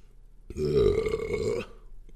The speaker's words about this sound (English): that's what I think. Belch.